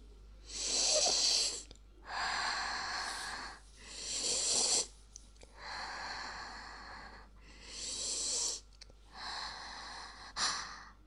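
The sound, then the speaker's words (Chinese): Deep sniffing breaths drawn in while someone holds a father's feet up to the nose. Several long, hissing pulls of air come in a slow, even rhythm, each separated by a short pause. “女儿现在把爸爸的脚捧起来放在鼻子下深呼吸”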